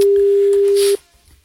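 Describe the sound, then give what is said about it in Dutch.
Ringing tone of an outgoing telephone call: a single steady, loud mid-pitched tone lasting about a second, then cutting off abruptly. “Suzanne Eikemans gaan we bellen van het Nederlands Visbureau.”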